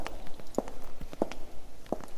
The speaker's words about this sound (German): Gehen wir nach vorne in das Zentrum der Kirche zum Gnadenaltar.